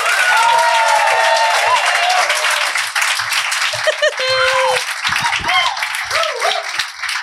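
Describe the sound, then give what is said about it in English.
Audience applause welcomes performers to the stage, a dense, steady wash of clapping with some cheering that lasts the whole stretch while a voice talks over it. “Could you please put those hands together and welcome”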